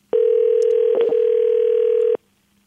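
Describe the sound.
On an outgoing telephone call, a single steady ringback tone sounds loud and unbroken for about two seconds at a fixed mid pitch, then stops, leaving silence.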